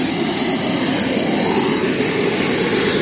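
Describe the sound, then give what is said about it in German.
A gas turbine engine roars steadily and loudly during start-up, with gas fed into the hot turbine as it spools toward about 60,000 rpm. The dense, even rush of noise holds at one level throughout. “Wir sehen jetzt, wir haben bereits 400 Grad in der Turbine drin. Jetzt ist das Gas dazugekommen, jetzt fährt das Ganze rauf. Auf etwa 60'000 Umdrehungen.”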